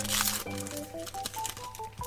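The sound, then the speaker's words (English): Crinkling plastic wrapper as a Series 2 trading card pack is torn open, with a run of papery rustles and crackles that rise and fall irregularly throughout, no talking. “I am opening the inaugural card of Series 2.”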